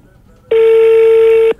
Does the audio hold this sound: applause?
no